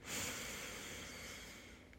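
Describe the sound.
A faint, deep breath drawn in through the nose during a guided relaxation exercise, one long steady airy inhale that swells early and then slowly tapers over about two seconds.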